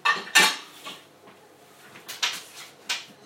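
Cereal bowls and dishes being handled, with several sharp clinks and clatters of dishware and cutlery. The clatter comes in louder bursts at the start and again later, with quieter knocks in between.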